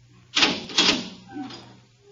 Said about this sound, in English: The door, Professor. Very well.